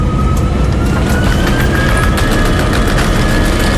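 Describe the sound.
An airplane takes off in a sound effect: a dense, steady engine roar at constant loudness, with a thin high whine held throughout.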